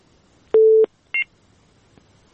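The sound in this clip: Telephone dialing tones for a radio phone-in call: a longer dual-pitched beep followed by a short, higher beep, then a few faint clicks in near silence.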